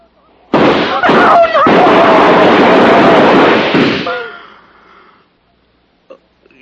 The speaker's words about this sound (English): They shot at me.